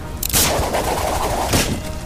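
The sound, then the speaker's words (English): A grappling gun firing into a tree: a loud, sharp burst followed by a steady rushing, whirring noise, then a second sharp burst before the noise continues. “Luckily, I had just upgraded the grappling gun. I fired it into the nearest tree.”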